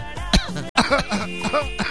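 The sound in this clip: Coughing from a person, with a short harsh burst near the start, then a brief silence and a few strained, voiced throat sounds and groans that follow in uneven bursts.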